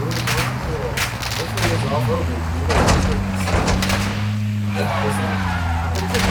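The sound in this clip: Video game car driving and skidding: a droning engine whose pitch shifts, broken by bursts of tire screech and clatter, under voices talking.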